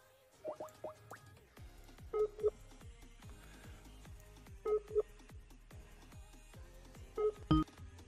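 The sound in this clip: Touch-tone dialing of a telephone number: bright, evenly pitched DTMF beeps come in a few short clusters of two to four quick tones, separated by pauses, over a faint steady ticking background.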